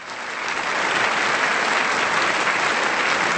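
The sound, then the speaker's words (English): Studio audience applause for contestants who answered a guessing round correctly: dense, steady clapping that swells in the first half second and then holds at an even, loud level throughout. “Let them have it. Let them have it, audience. For those who got it right.”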